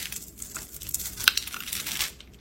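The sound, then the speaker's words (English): A pre-cut bar of soap is cut along its scored marks into small cubes, giving many fine, crisp crackles and crunches at a low, even level, with one sharper snap midway. “Soap that has cut marks in it already, and it's making little cubes.”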